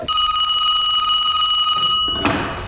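A telephone rings with a steady, high, bell-like trill that cuts off abruptly, followed by a brief knock.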